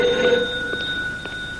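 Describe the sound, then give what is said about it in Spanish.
A telephone rings in a café phone booth with a steady, continuous electronic ringing tone at moderate loudness throughout, with no voices. “Lonegan avanza cojeando deprisa para atender la llamada”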